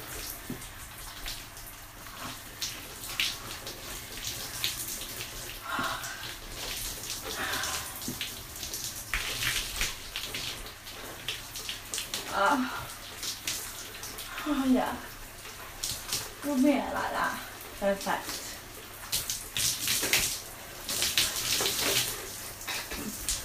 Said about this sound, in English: I need to rinse my hair off.